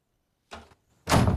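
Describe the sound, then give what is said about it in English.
A bedroom door is closed softly: two brief sounds, a muffled rub followed by a louder, fuller thud of the door settling shut, with quiet before and between them. “He closes the door softly and studies her.”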